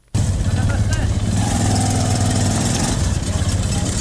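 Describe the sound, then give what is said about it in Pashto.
A Zaranj motorcycle rickshaw engine idles in Kandahar with a loud, steady, continuous rumble. The sound starts abruptly and holds without a break. “کندهار کې د ټیکسي موټرونو او نورو رکشو سره سره خلکو د زرنج موټر سایکلونو څخه رکشې جوړې کړې او سپرلې وړي راوړي.”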